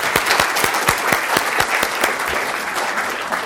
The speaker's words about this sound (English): Let's give Leah Busque a warm welcome.